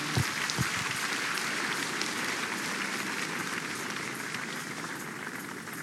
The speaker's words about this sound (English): Please give the Lord another big hand of praise.